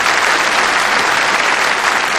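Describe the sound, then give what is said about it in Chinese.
Dense, steady applause from an assembled group congratulating a flight-test team at a base, continuous and even throughout with no voices over it. “给我鼓什么掌？一会儿文艺演出队的同志们演得好，唱得好，你们再给他们鼓掌，对不对？”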